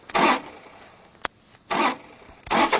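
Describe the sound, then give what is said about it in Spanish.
An SUV being hotwired in a 2002 drama scene: three short, loud bursts of engine cranking with a single sharp click between the first two. “intenta hacerle el puente al todoterreno”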